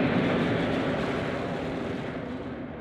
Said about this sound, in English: And now, prepare for departure. We are cleared for takeoff.